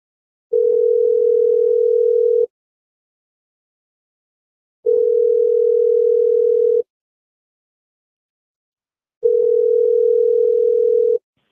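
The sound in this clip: A telephone ringback tone plays while a call is placed again: three steady, mid-pitched tones, each lasting about two seconds, separated by silent gaps of similar length, with no voices.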